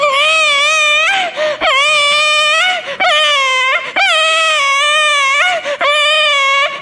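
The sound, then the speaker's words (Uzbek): An infant crying in loud, high, sustained wails, repeated several times in a string with brief catches of breath between them. “Deb turgan ekan, chaqaloq yig'lab qopti.”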